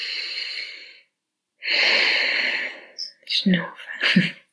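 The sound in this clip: Deep breathing out through the nose: a fading breath, a pause, then a long loud hissing exhale, followed by a few short breathy sounds or speech.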